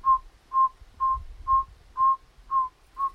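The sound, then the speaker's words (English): A person whistles an imitation of a saw-whet owl's call, the owl being one heard in Manitoba. Seven steady, evenly spaced mid-pitched toots come about two per second, alone and fairly soft. “And that's another second most common owl in Manitoba, and it's got quite a distinct call, so it has more of a whistle, like a.”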